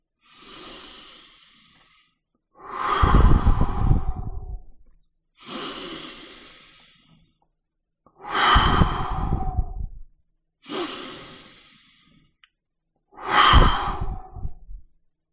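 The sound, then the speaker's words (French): Three slow, deep breaths in a guided relaxation, each a soft drawn-in inhale followed by a longer, louder sighing exhale, separated by short silences. “À votre rythme, sans vous presser. Faites trois respirations profondes.”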